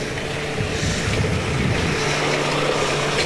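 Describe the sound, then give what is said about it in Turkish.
A vehicle drives through floodwater on a flooded street beside a creek bed lined with shops, giving a steady, loud rumbling wash of engine and water noise that runs unbroken through the whole stretch with no talking. “Dikkat et, araç var.”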